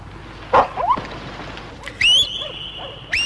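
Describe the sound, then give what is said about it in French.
Hunting dogs loosed after a she-wolf give a few sharp, high yips and whines, including one long, steady high-pitched cry, over a low background rumble. “Lâchez les chiens”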